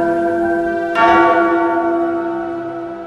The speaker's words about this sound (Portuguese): sacristão, toca o sino aí